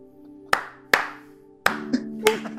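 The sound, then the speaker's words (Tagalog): Four slow, deliberate hand claps, each sharp and followed by a short ringing tail, unevenly spaced over a low steady hum. “Slow clap.”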